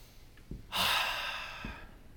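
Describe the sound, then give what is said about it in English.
A crowd taking a deep breath together at a live talk: one broad, airy rush lasting about a second, loud at first and then tapering, with faint thumps just before and after and no speech. “take a deep breath.”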